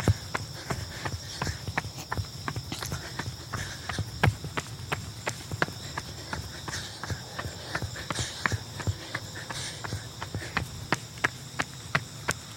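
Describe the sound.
Footsteps of someone jogging make a steady, quick rhythm of many light thuds over a constant background hum.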